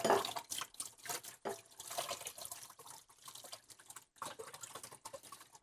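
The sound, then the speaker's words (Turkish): Faint wet plops and soft clicks as yogurt is added to a mixing bowl, coming in an irregular series of small splats and taps. “Yoğurdumu ekliyorum.”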